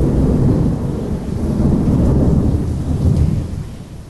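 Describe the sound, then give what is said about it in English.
Thunderstorm with steady, heavy rain: a loud, continuous wash of rainfall runs through the whole clip, with deep rolling thunder swelling and easing beneath it. “Sometimes it's a stormy season somewhere.”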